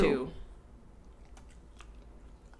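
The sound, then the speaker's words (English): A baby yawns and smacks his little lips, a brief soft vocal sound at the start giving way to faint, wet clicks and smacks over a quiet background. “He's just yawning and smacking on his little lips.”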